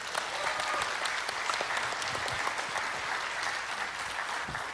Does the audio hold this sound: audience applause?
yes